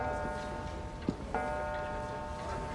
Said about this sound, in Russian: Джек стоит спиной к Роуз наверху парадной лестницы и смотрит на настенные деревянные часы.